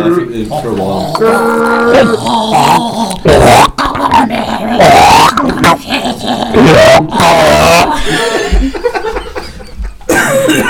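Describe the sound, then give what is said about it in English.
A voice imitates a bear drowning while choking on feces: loud, continuous guttural growls, gurgles and cough-like bursts over about eleven seconds. “This is the noise of a bear drowning while choking on feces.”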